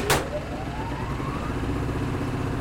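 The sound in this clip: Generator engine starting up after being choked: a sharp burst at the start, then a tone that climbs in pitch as the motor settles into a steady, droning run.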